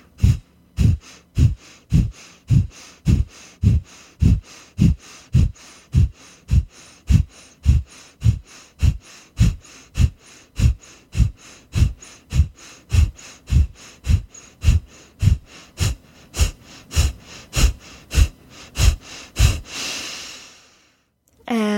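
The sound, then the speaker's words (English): Rapid rhythmic breathing through the nose: many sharp, evenly spaced breaths in a steady run lasting about twenty seconds, then a brief pause and one final breath. “Breathe in through the nose and begin.”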